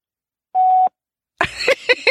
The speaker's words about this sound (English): That's her voicemail. Of course she didn't answer.